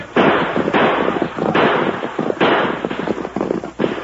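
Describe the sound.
Gunshots in a Lone Ranger western radio drama, fired fast and wild: several loud, overlapping reports in quick succession that crackle and echo without pause.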